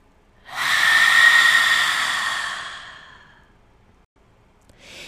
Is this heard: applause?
no

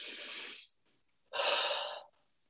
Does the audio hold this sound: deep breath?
yes

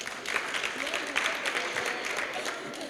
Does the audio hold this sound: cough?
no

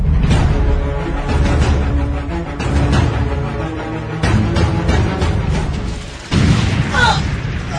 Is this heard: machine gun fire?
yes

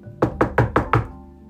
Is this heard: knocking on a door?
yes

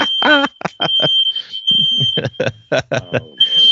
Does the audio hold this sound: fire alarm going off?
yes

